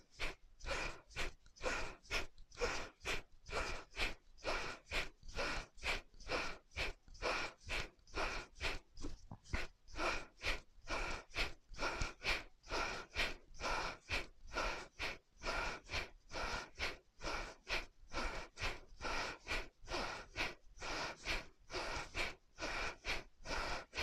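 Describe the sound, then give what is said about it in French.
Deep exercise breathing during a shoulder-shrug routine: many loud, steady in-and-out breaths repeat in an even rhythm throughout, with no talk. “Inspire, épaule en haut, expire, épaule en bas. Inspire, expire, inspire,”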